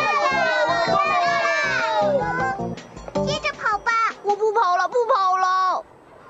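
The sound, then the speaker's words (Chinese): Crowd of children shouting and cheering during a race or competition: high, excited young voices overlapping in bursts, loud and continuous before breaking into shorter shouts near the end. “大家在为我们加油呢”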